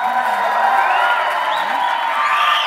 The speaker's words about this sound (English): So I want you guys to join me in giving a good redneck Ozarkian welcome to Gil Reggae.